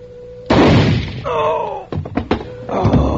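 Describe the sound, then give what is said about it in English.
A shotgun goes off in one sudden heavy bang with a rough decay, followed by a few further knocks and thumps. “The gun went off.”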